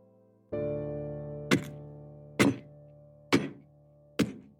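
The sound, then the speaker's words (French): Firewood is chopped for a fire in four sharp, evenly spaced thunks over a steady humming tone, with no voices. “Mère Barberin me dit Casse du bois, il nous faut un bon feu clair, sans fumée.”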